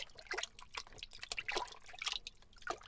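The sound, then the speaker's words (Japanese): Lotion and hot water stirred together in a basin make faint, wet sloshing and dripping, several irregular soft liquid splashes with no voices. “ローションとお湯を洗面器にたっぷり入れて、かき混ぜて”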